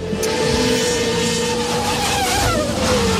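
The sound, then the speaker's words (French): Autonomous race cars roar by in a continuous, loud engine whine. Their pitch shifts and sweeps as they race, with layered high tones bending up and down near the end. “Ce bruit de course automobile, c'est un tout nouveau sport auto dont vous allez nous parler”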